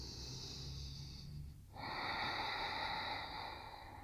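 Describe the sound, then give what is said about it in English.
Deep ujjayi breathing in a yoga flow, a faint, steady, throaty rushing breath sound with a brief dip partway through before the breathing resumes. “Deep, powerful Ujjayi Pranayama.”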